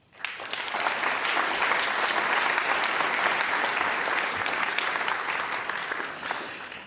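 Audience applause welcoming a guest onto the stage at a panel event on moral questions during the pandemic: dense, even clapping that starts quickly and holds steady for the whole stretch, fading only slightly at the end.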